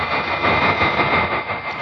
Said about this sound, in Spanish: El pequeño jet remonta el vuelo, trazando un círculo sobre la isla de Escorpio